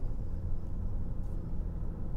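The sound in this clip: Steady low engine rumble from a car driving up a hill in a gas-drilling county, a continuous dull drone with no distinct events.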